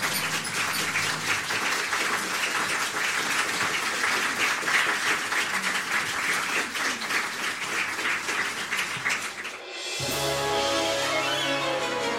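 Audience applause welcoming performers at the Playhouse: steady, dense clapping holds evenly for nearly ten seconds, then cuts off and music begins.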